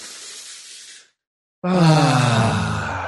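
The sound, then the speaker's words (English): A deep clearing breath is taken together by a group, starting with a breathy inhale, then a brief silent pause, then a loud voiced, sighing exhale. “So let's take one clearing breath.”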